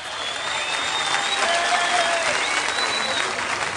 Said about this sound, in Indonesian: Mari kita berikan aplaus yang meriah buat sang seniman komedian yang luar biasa ini